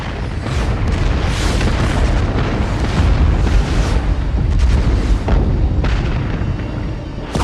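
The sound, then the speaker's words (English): Artillery and gunfire in a tank battle against enemy tanks about 1,500 meters away: a loud, continuous roar of booming blasts, with a few sharper bursts standing out near the end and no talk. “Station one, prepare to open fire. Three, two, one, fire.”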